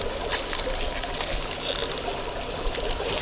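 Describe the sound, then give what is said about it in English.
Carbonated water fizzes and hisses as it is poured into polystyrene cups, a continuous bright, bubbly rush at an even, moderate level with no voices. “Something is about to be imbibed. That's okay. Is everyone okay with carbonated water?”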